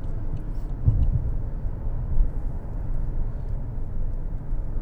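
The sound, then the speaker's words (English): A steady low rumble of traffic as cars drive fast along a street in Las Vegas, forming one continuous roar without distinct individual pass-bys. “Something else I noticed in Las Vegas, as I'm noticing here right now, this very minute, what is with everyone driving so fast? Why is everybody in such a hurry?”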